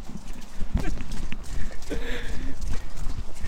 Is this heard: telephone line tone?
no